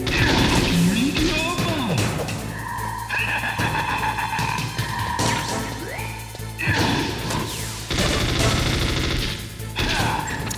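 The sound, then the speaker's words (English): A grenade detonates in a video game, with the player's producer grenade stunning their own character. Loud, dense crashing and whooshing game effects with sharp impacts run continuously for about ten seconds. “Okay, I'm not doing any damage to this guy. That's a producer grenade. I think I just stunned myself.”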